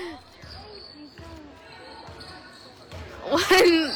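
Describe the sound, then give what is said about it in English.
A basketball dribbled down the court during a game, with regular rhythmic bounces thumping under a commentator's voice, followed by a louder burst near the end. “One taking the ball down the court.”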